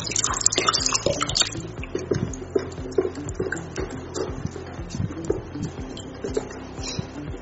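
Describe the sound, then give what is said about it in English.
Water is poured into a mixture to dissolve it before it goes into the main batch. It makes an uneven trickle and splash broken by many small drips and knocks, moderately loud, with no talking. “I'm adding the water to it for it to dissolve very well in water before we add to the main mixture. So it's time to add it now.”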